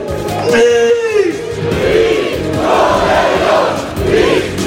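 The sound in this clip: Lech Poznań supporters celebrate the league title in Poznań with loud collective shouting and chanting. The crowd noise is continuous and rough-edged, with whoops and bellowed voices that surge in waves throughout.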